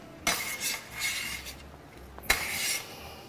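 Food goes into a frying pan: two sharp metallic clinks against the pan, with faint scraping and rustling between them, all fairly quiet.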